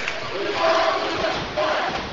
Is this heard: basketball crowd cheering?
yes